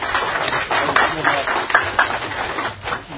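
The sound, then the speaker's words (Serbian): Applause from an audience welcoming guests at a poetry evening: a dense, steady wash of many hands clapping that holds at a fairly even loudness throughout, with no voices breaking through. “I molim vas na početku da pozdravimo aplauzom naše goste.”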